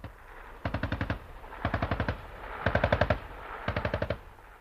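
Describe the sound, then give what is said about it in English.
Four short bursts of machine gun fire at a target during military training, each a rapid, evenly spaced string of sharp shots over a low rumble, with brief pauses between bursts. “And the target's in front! Target's in front! Normal fire, engage! Normal fire, engage!”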